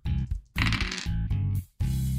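Dice clatter as they are rolled on a table during a tabletop role-playing game, a few loud rattling bursts separated by brief gaps, with no talking.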